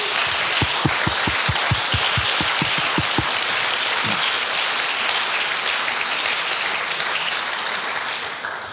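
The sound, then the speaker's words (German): An audience applauds vigorously at a church evening gathering, dense continuous clapping that stays loud throughout, with a brief run of rhythmic unison claps near the start. “an der Stelle mal einen ganz kräftigen Applaus für alle, die irgendwo hier mitarbeiten.”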